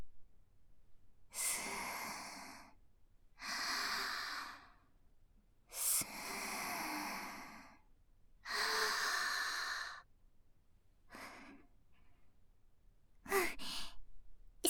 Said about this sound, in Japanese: ちょっと深呼吸しますね。